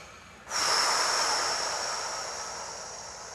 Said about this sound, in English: just stand up and take a breath in and out. And another breath in and out.